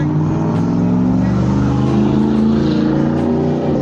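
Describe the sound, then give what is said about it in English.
A truck drives past with a loud, continuous low engine rumble that holds fairly level across the whole stretch, with no one talking over it. “You hear that truck going by?”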